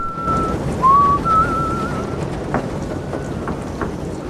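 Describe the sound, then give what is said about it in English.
A person whistles while walking down a dimly lit hallway, producing a clear, fairly high tune with a short dip in the middle that runs for about two seconds over a steady, soft background hiss. “Whistling, Gates cautiously moves down a badly lit hallway towards a doorway where he pauses.”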